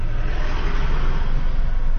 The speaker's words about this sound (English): And all the cars coming out of the direction are filing past us.